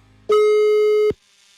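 A telephone busy signal sounds after a call is dialed: one loud, steady electronic tone lasting under a second, then it cuts off, with no voices.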